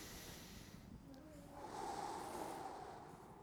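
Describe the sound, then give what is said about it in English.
A deep breath drawn in and let out, soft and airy, with a gentle snort-like rush that swells in the middle and then fades away quietly, with no talking over it. “what I want you to do is everybody take a deep breath. Good. Again.”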